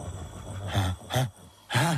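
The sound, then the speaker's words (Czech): A voice imitates the snoring of someone who has gorged on beechnuts, with a few loud, low, rasping groans at a slow, steady rhythm and quieter breathing between them. “Sláva, nic nerozřezal. Nadspal se bukvic a teď chrápe.”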